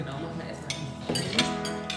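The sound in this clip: Plates clink as they are handled, giving a few light ceramic chinks and scrapes over a low, steady background.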